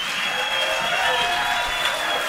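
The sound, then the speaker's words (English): Audience applause after a band introduction: a steady wash of many hands clapping, moderately loud and even from start to finish. “Larry Sparks from the Lonesome Ramblers. A big round of applause.”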